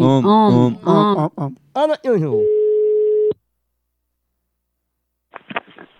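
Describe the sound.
Telephone ringing tone on an outgoing call: one steady, sustained tone lasting about a second comes after a loud stretch of voices. Silence follows, then a brief faint rustle.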